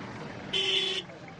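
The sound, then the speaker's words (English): A Ugandan bus racing out of town toward the border honks once, a steady bright horn tone of about half a second over a noisy background. “Ugandan buses barrel out of town in a race to make it to the border before it closes for the night.”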